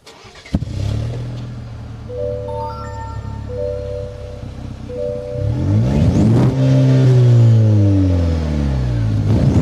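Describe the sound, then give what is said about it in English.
A 2023 Chevy Colorado engine revs as its turbo spools, with a steady idle giving way to a louder surge whose whining tone climbs in pitch and holds high near the end. “Can you hear that turbo spool? I certainly can. I think it sounds really cool from the outside.”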